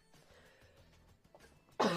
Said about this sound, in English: I should have muted my mic, not coughed away from it.